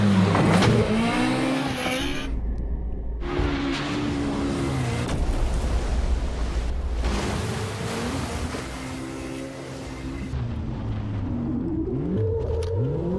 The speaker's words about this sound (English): I just want to hear the motor again.